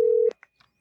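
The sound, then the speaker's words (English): A telephone dials out with a short steady tone, then a few faint, brief electronic blips in near silence. “Let's see if Peter is available for a little ring a ding ding.”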